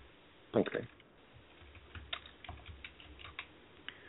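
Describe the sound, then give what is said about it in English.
Typing on a computer keyboard: a quick burst of clicking keystrokes, then scattered lighter taps that continue faintly over several seconds. “I still don't see you, but I'm going to type something here again.”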